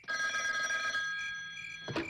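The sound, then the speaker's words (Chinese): A telephone bell rings in one sustained, metallic peal that slowly fades. A brief burst of noise cuts in just before the end. “当天晚上，王礼环刚吃过晚饭，就接到第53军参谋长蒋锡斌的电话查询”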